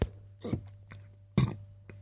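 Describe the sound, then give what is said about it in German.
Deliberate burping: a few short, throaty belches in separate bursts, the loudest near the middle, with no talk. “Und weg ist der Rülpser.”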